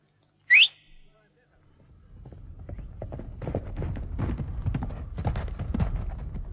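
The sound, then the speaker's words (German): A short, sharply rising whistle calls a horse. After a brief pause, horse hooves clip-clop in a quick, steady rhythm that grows louder as the animal approaches and then stays loud. “Ruf dein Pferd herbei.”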